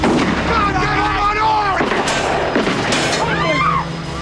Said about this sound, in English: The neighbor runs out with a shotgun.